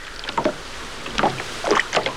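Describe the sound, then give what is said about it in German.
Water laps and splashes softly against a boat drifting with its engine off on a coastal sea just after a storm has calmed; a few gentle gurgling bursts rise and fade over a low, steady wash. “schon bald stellte Ashley den Motor ab und ließ das Boot treiben.”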